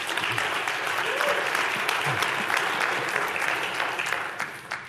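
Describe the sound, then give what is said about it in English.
Audience applause welcomes a guest speaker at a morning gathering at Gateway, a dense and steady wash of clapping that holds for about five seconds before thinning out at the end. “So please give a warm welcome to Rick Love this morning.”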